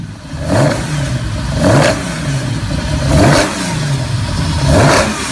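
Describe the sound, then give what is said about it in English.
A classic rally car engine revs hard in four repeated surges, each swelling to a loud, rising roar and then easing back to a rough, throaty idle, with no voices. “or maybe an Escort or a Datsun 240Z. These cars sound fantastic.”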